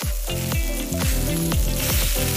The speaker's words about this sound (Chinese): 烤架上滋滋冒油的猪蹄